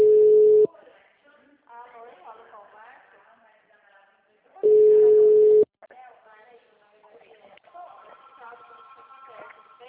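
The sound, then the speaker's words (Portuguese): Telephone busy tone after a dropped call: two loud, steady, mid-pitched tone bursts, one at the start and one midway, with a man's and a woman's voices talking on the line between them. “a ligação caiu”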